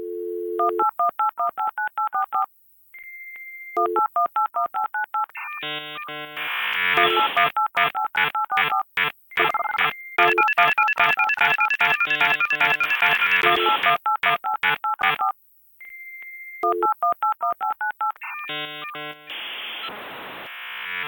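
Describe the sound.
Touch-tone telephone dialing, a long run of many rapid, steady beeps in shifting pitches, thickening in the middle into a dense, noisy jumble of overlapping tones before clear single beeps return.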